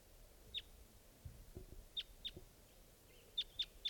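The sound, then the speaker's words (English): Six short, high chirps from a wild bird, coming singly and in quick pairs at an uneven pace, faint over a quiet background. “Wild bird.”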